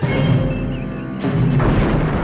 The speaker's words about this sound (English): And right as this conflict is reaching a high level, they're under attack.